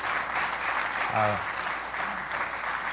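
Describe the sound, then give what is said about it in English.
Audience clapping in church for welcomed guests: a steady, dense wash of applause all the way through, with a brief voice rising over it partway. “Let us welcome you. Give them a good hand.”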